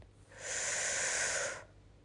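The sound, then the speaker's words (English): One deep breath drawn in through the airway during a guided breathing exercise makes a soft, steady breathy rush that swells, holds for about a second and fades. No other sound is heard. “I would love for you to take a deep breath with me. Breathe in.”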